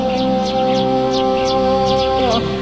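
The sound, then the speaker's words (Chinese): Many birds sing in a grandmother's pretty yard, with quick repeated chirps over a steady droning background. “这鸟还真是挺多的。”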